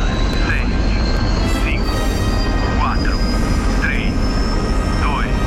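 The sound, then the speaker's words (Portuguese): A loud, steady roar of an aircraft takeoff launch effect following a countdown, with short chirping tones recurring every second or so above the rumble. “Tudo pronto para decolagem? Iniciar contagem regressiva.”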